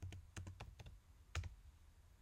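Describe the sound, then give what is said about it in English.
Soft keystrokes as a name is typed on a computer keyboard: a quick run of faint clicks, a short pause, then a couple more taps, alone without talk. “In this case, you have to find one of your own posts. So type your own name in,”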